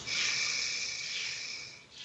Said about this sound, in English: take a deep breath in